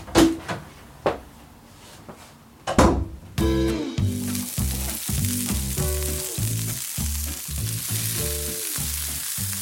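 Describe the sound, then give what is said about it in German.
Burgers fry in a kitchen pan: a few clattering knocks and bumps of cookware come first, then a loud, steady hiss of sizzling fat takes over and continues to the end. “Und du musst jetzt in die Küche Burger braten.”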